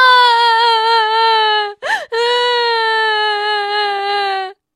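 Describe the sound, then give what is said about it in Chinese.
A voice imitates a little kangaroo crying loudly: sustained, high, wavering wails in two long stretches, broken by a short sharp squealing sob in the middle. “小袋鼠放声大哭起来。”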